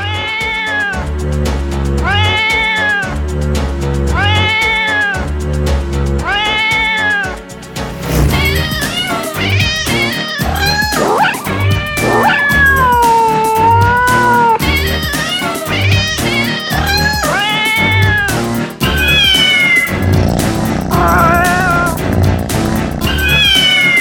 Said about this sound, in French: ils ont la certitude de tout connaître de ce petit chat et de son malheur.